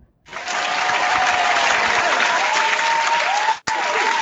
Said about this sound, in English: Bandwagon Nerds is taped in front of a live studio audience.